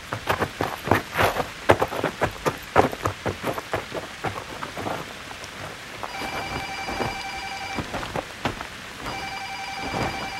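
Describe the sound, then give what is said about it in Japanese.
Rain starting to fall: a burst of loud, irregular drops and patters that thins after the first few seconds into a steadier hiss, while a telephone rings in two bursts over it. “あ、雨だ。”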